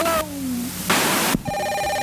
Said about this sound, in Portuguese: Isso aí é um interfone nos anos 70.